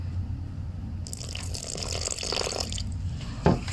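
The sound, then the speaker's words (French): Water pours into a dough mixture in one steady rushing stream lasting about two seconds, followed by a brief soft knock. No voices. “Là, dans mon mélange, ça manque un petit peu d'eau. J'en ajoute, pas trop.”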